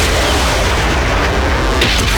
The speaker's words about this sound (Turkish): Ateş serbest. 358 füzeleri fırlatıyor.